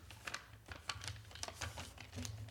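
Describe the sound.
Faint crinkling and rustling of paper being folded by hand, heard as many small, irregular crackles with no voices.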